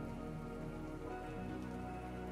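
Rain falling on a surface, a steady, dense patter of drops that holds at an even level throughout, with no single drops standing out.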